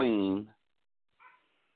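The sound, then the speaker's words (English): A dog barks in the background, giving one loud, tonal bark, then after a short silence a brief, much fainter sound. “somebody's dog is barking”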